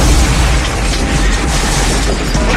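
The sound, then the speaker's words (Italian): A bomb explosion in a pub in Guildford: a loud, sustained roar of dense noise with heavy low rumble that holds steady, without separate distinct bangs. “5 persone sono morte, 75 sono state gravemente ferite a causa della bomba fatta esplodere dall'ira senza preavviso nel pub di Guildford.”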